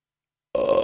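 A person burps after swallowing air: one loud, rough burp breaks a short silence and holds steady for under half a second.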